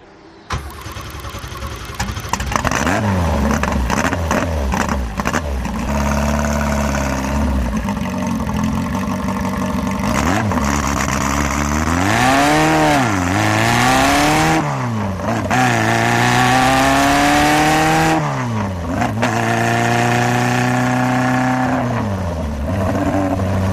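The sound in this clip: A Lancia Delta's engine cranks and catches, then revs as the car drives off, its loud, steady drone rising and falling in pitch several times as it accelerates; no one talks over it.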